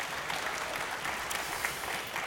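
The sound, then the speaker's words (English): A church audience applauds while celebrating a group of baptisms. Dense, steady clapping from many people fills the whole moment at an even, moderate level, with no voices standing out. “That's worthy of applause.”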